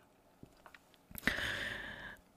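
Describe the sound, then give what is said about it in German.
A sip of coffee: a few soft, faint clicks, then a sustained airy slurp lasting about a second before it fades. It is quiet and has no talk. “ich nehme gerade mal einen Schluck Kaffee und dann gucken wir weiter.”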